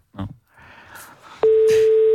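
Telephone keypad tones while navigating an automated phone menu. A few soft clicks and handling noises come first, then a single steady tone sounds and holds unbroken to the end.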